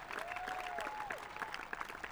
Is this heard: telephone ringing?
no